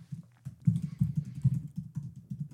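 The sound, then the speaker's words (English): Typing on a computer keyboard: a quick, steady run of many soft key taps with a dull, low tone, with no voices over it. “Yeah, just type those three words.”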